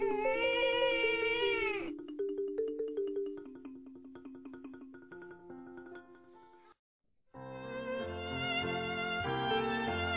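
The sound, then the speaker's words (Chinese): A young child bursts into a loud, wailing cry lasting about two seconds. Gentle plinking music follows, then a brief silence before fuller music resumes. “弟弟哇的一声哭了起来”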